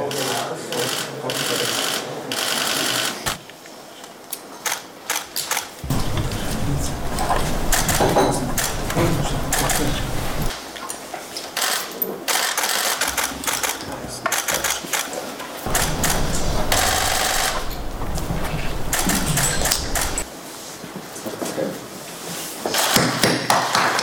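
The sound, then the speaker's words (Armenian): Photo cameras click in rapid, dense bursts at an agreement signing ceremony at a technical university in Cologne, with loud stretches of shutter clatter broken by brief quieter gaps. “Սա համաձայնագրի այդ արարողությունն էր, լուսանկարչական ապարատներն էին չափսում։”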